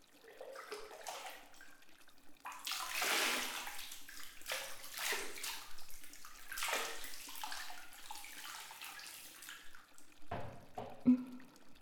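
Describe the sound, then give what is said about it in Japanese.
Hot water is poured over a person sitting in a bath, giving a few surging pours and splashes with steady running water between them and one sharper, louder splash near the end. No one talks. “お湯かけるわよ。”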